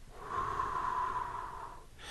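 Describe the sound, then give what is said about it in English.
A single slow, deep exhale, taken as part of a calming breathing exercise for children. The breath is a steady airy rush lasting about a second and a half, then it fades to quiet. “Breathe in. Get all the color in your body. Let it feel all over. Hold. Breathe out.”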